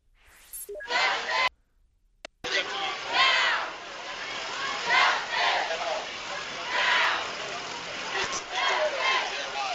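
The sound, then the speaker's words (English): Protesters chant at a school board meeting while NAACP clergy are being arrested outside. A large crowd shouts in loud rhythmic swells that keep going, with a brief pause near the start. “That's protesters at the school board meeting chanting as Reverend William Barber and Reverend Nancy Petty of the NAACP were arrested outside the school board meeting.”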